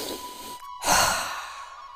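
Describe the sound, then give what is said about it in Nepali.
A single deep breath drawn in during meditation swells as a soft, airy rush after a brief silence, then fades gently. A faint steady tone runs underneath. “Negative विचार गहिरो सास तान्नुहोस्”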